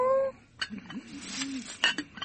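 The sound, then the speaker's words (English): A voice imitates a cat's meow while reading a children's story about a cat. The meow is a brief, tonal mew at the start, followed by softer, murmuring vocal sounds. “Meow.”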